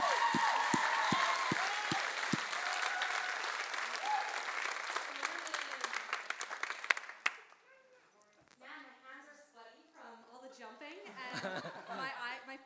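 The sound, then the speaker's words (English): Audience applause welcoming a speaker to the stage at a church service. The steady clapping lasts about seven seconds and then fades out, followed by a person talking. “So, hey, would you put your hands together”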